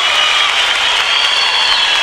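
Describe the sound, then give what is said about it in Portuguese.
Audience applause for a singing duo at a live music show: dense, loud, steady clapping that holds at an even level for about two seconds. “aplauso de vocês”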